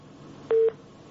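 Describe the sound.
An electronic line tone as a caller's phone connection drops: one brief, steady beep lasting about a fifth of a second over a faint hiss.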